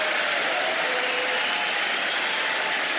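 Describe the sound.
An audience at a political speech cheers and applauds. The crowd noise is dense and unbroken, with steady clapping and cheering at a constant level throughout.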